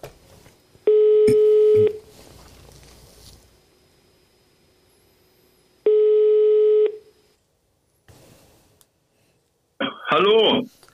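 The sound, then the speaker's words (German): Telephone ringback tone on an outgoing call: two steady, buzzy one-second tones separated by a long silent gap, then a voice answers at the end. “ruft man einfach mal an, oder?”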